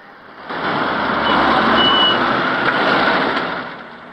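A white van pulls up outside a building, its engine noise swelling into a steady rumbling drone, holding briefly, then easing slightly.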